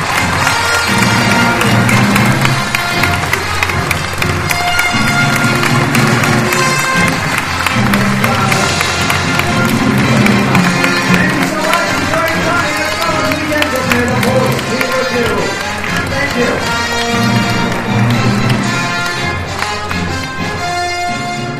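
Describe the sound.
Loud cheering and applause rise from a crowd at a Star Wars Weekend event, greeting Mark Hamill; the dense clapping and shouting stay steady and full for the whole stretch.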